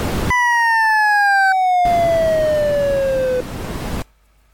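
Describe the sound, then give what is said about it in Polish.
Sonified function-graph tones: a steady pure tone slides slowly downward in pitch while a higher tone stops early. Then a hiss of noise sets in under the remaining tone and carries on after it ends, before cutting off abruptly. “No, jak słyszymy, tu już wartości po obu stronach przekroczyły to, co można za pomocą tonów pokazać, a więc słyszeliśmy szum,”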